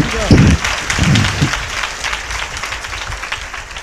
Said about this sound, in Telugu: అందరు చప్పట్లతో దేవుని కనపరుస్తామా గట్టిగా